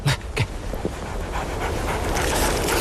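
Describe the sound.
Rapid panting of an injured three-legged wolf being bandaged with a scarf: two sharp, breathy huffs at the start, then softer, steady breathing noise that continues to the end.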